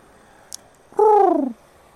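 A single pigeon coo: one smooth, moderately loud voiced call lasting about half a second, gliding gently downward in pitch, heard alone with no talk.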